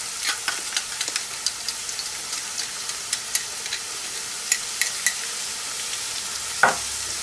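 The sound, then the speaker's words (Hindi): Garlic frying in hot oil in a cooking pot, a steady soft sizzle dotted with many small crackles and pops, with one sharper pop near the end. “तेल भी इसमें गर्म हो गया हुआ है. पहले हम इसके अंदर में जो हमने गार्लिक रखा हुआ है अच्छी तरह इसको हम बीच में गोल्डन करेंगे.”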